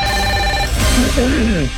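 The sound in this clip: A telephone rings with an incoming call: a steady electronic ringing tone that lasts well under a second before a voice starts talking.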